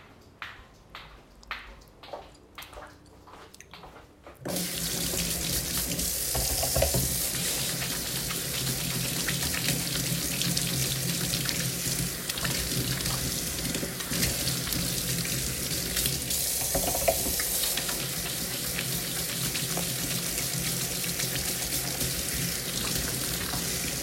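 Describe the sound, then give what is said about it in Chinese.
Running tap water while hands are washed: after a few quiet clicks, a loud, steady rush of water starts and continues evenly to the end. “可能你总是听到我洗手弄水的声音哦”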